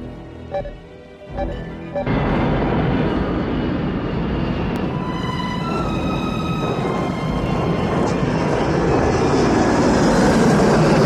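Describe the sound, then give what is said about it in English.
An airliner lands in 30-knot crosswinds on an icy runway, from the film Die Hard 2: a few soft thuds give way to a loud, steady jet engine roar that holds to the end, with no voices. “600 feet. Looking good, Windsor. Now watch it. 30 knot crosswinds and the runway is icy.”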